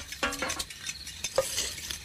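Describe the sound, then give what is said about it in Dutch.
A spoon stirs two spoons of sugar into a cup of coffee, giving a few soft, light clinks and scrapes against the cup at an uneven pace. The sound is fairly faint and there is no talking. “Kom, dat is koffie sy. Gooi vir my net 2 lepel suiker aan.”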